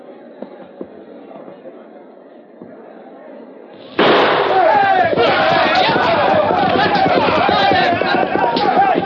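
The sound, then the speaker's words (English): A signal gunshot starts a land rush for homestead claims: a sharp, loud shot cuts through a quiet stretch, followed at once by a sustained roar of crowd commotion and noise. “I'll fire the signal in exactly 5 seconds.”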